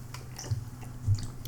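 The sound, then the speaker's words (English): Someone drinks a Halloween pumpkin drink from a package decorated with a Grim Reaper, making two soft, low swallowing gulps over a quiet background. “It's got a Grim Reaper made out of a pumpkin on the package. It's very scary. I'm a little scared to drink it, actually.”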